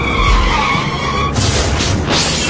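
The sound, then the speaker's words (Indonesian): A car skidding in a traffic accident after running a red light: loud tire squeal holds for about a second, then gives way to harsher, noisy scraping bursts. “Akhirnya kan kecelakaan.”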